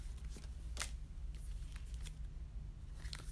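Tarot cards being shuffled and drawn, a few soft, papery snaps and flicks spread across a low background hum.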